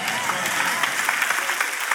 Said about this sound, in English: Oh, the applause died down by 73%.